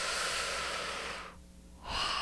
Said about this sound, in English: Take a deep breath.